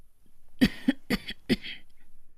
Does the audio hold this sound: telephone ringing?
no